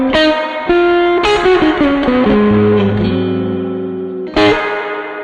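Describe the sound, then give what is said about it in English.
An electric guitar plays through a Homestead Texas Storm 1x15 combo amp with heavy, wet reverb. A few struck chords and single notes ring out loud, then smear into a long, lingering wash that trails between attacks. “it's a really wet sounding reverb.”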